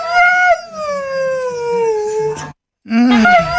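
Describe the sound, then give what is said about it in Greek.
Dog howling in a drawn-out, voice-like wail, as if saying I love you: a long, loud howl glides slowly down in pitch, breaks off into a brief silence, then a second, shorter howl begins. “Ο Σκούπιντου λέει σε κατάθλιψη. Όχι παιδιά, λέει I love you.”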